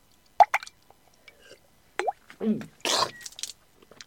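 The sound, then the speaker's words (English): Fine brandy swirled in glasses for a toast: a few brief liquid plops and drips, sparse and separate, then a short splashy wash of sloshing. “let us toast our diabolical scheme with the customary swirling of fine brandy. To Satan! To Satan!”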